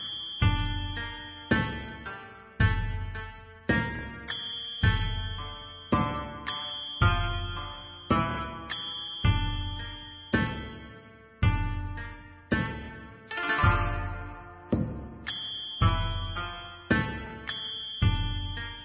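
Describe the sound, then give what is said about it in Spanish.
Japanese leader theme music for Tokugawa from the Civilization video game, with bright struck melodic notes in a steady rhythm and many repeated attacks, purely instrumental with no voices. “Escuchemos un poquito más del tema japonés.”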